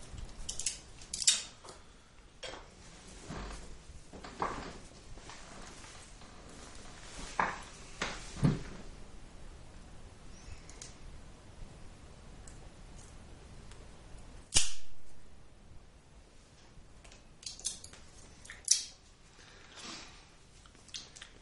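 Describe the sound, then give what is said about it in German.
Crisp snips of cutting into tightly wound material, chopping it into small pieces: irregular, dry cutting sounds with a few sharper, louder snaps among quieter rustling. “Ist ziemlich fest gewickelt, aber ich schneide trotzdem mal eher klein ab.”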